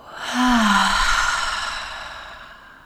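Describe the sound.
A deep breath during a guided breathing exercise, heard mostly as one long, airy exhale that swells and then slowly fades over about two and a half seconds, with a brief voiced tone near its start and no talking.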